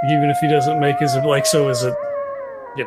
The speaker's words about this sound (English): You just hear a coyote howling off in the distance,